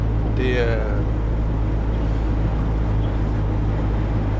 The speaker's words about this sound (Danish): Vi kører her igennem Hornbæk Plantage nu her, ikke? Og vandet ligger lige ved siden af.